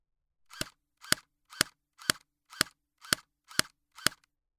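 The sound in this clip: Eight sharp, snappy airsoft gun shots fire at an even, steady pace, each a brief crack with a short tail, alone against silence.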